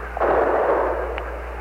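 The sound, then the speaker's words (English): A single heavy blast of a bazooka-type weapon firing outside the U.S. Embassy in Saigon in 1968, a loud rushing burst that swells quickly and fades over about a second above a steady low hum. “You see a firing bazooka type weapon. It sounds like that from here.”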